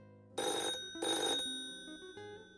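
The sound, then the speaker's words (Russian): Telephone bell ringing for an incoming call: two loud, bright bursts of ringing separated by a short pause, then a quieter lingering tone. “Нас подслушивают. Постойте. По-моему, к нам поступил первый звонок.”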